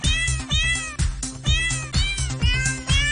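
Cat meows arranged into a song, sung as though by animals, with rising and falling mewing cries on a steady rhythmic beat. The meows repeat many times over a thumping low backing.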